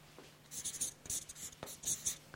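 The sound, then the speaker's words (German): Writing a question up on a board makes quick scratchy strokes, many short rasping bursts in an uneven rhythm with tiny pauses between letters, fairly soft and with no voices. “Stellen Sie diese Frage und die Frage schreibe ich jetzt an.”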